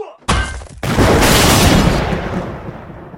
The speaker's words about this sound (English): I'm about to throw this economy-sized tub of green beans at you. Also, there's a bomb in it. Look out!